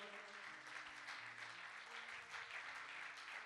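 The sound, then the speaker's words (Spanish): An audience claps its hands during a church service. The clapping is a dense, steady patter, quite faint, and runs without a pause throughout. “Dale palmas al Señor.”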